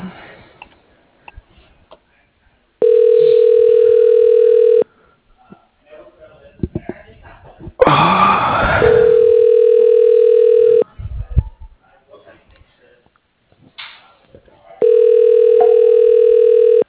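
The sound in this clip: Telephone line tone as a call is transferred to voicemail: three long, steady, mid-pitched tones of about two seconds each, separated by stretches of clicks, noise and brief voices.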